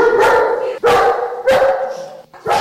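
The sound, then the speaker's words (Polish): Dog barking in a few loud, drawn-out bursts with short gaps between them, the voiced tone sitting in a harmonic mid range. “Dobry piesek. Dobry, dobry.”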